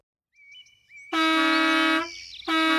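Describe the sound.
A jeep horn honking loudly: one long, blaring blast, a short gap, then a second blast that carries on to the end.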